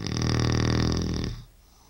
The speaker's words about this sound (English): And he snored like this for how long? 41 years.